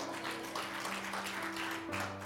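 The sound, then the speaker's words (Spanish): A church audience applauds, giving a quiet, steady wash of clapping with sustained low musical tones underneath. “Vamos, vamos, vamos, aplauda, aplauda.”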